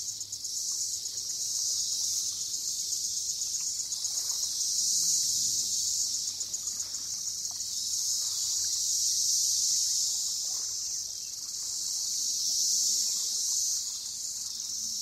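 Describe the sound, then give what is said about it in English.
Crickets or katydids call in a dense, steady high-pitched chorus that shrills without pause throughout, with no voices present. “I've always loved the sound of insects. I just think there's something quite amazing about something that's so small that emits such a powerful call,”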